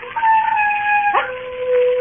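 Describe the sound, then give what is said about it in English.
Wild dogs baying and howling on a moor, a long sustained howl with wavering high tones that breaks with a sharp yelp midway, then settles into a lower drawn-out cry, fairly loud and alone. “There are wild dogs on the moor. Sometimes they bay and howl.”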